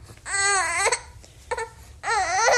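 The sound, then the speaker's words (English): A baby girl fusses and cries from hunger in three wailing bursts, each wavering in pitch, with short pauses between them. “She's hungry. She gets a little fussy when she's hungry, like every kid.”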